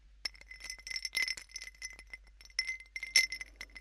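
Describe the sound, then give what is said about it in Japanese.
Ice cubes clinking in a drinking glass: a quick, irregular run of many bright, high clinks and light taps, fairly soft, with no voices. “この飲み物系リクエスト、氷の音とか、”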